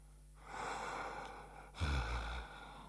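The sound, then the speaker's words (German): Deep, slow human breathing: two long breathy rushes of air, the second heavier and fuller, alone and fairly soft with no talk. “hol tief Luft und atme langsam aus. Konzentrier dich auf deine Atmung.”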